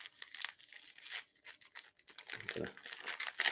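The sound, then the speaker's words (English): Paper crinkles and tears as a holiday gift package is opened, producing many quick, bright rustling bursts that rise and fall in loudness over the whole stretch. “What's in this package? Comment below. All right. I'm going to open in 5, 4, 3, 2, 1.”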